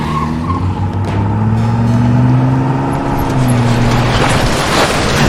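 Car engine roaring hard as the vehicle drives and accelerates during an escape, a loud sustained drone whose pitch shifts as it pulls away, with no talk.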